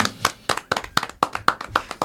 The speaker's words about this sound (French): Là, on peut applaudir.